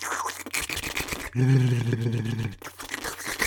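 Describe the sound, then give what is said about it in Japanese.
Wet licking and sucking mouth sounds repeat in irregular, smacking bursts. A sustained voiced tone interrupts midway, then the moist slurping returns. “舌先でペロペロするのと、こうやって吸うのを繰り返すのはどうですか？”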